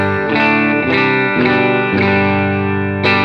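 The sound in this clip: Electric guitar played through a compressor pedal, heard alone as a few strummed chords that ring out with a smooth, sustained, evenly held tone.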